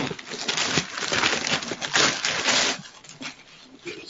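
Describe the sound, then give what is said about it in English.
Packaging on a rectangular parcel is ripped open in a steady run of loud tearing and crinkling bursts, which grow quieter toward the end. “I want sound so everybody can hear. This is me ripping stuff.”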